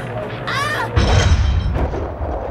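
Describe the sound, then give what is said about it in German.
A single gunshot lands as a dull, booming thump with a broad burst of noise that lingers and fades, set against a continuous rushing background. “Haben Sie das gehört? Das klang wie ein Schuss.”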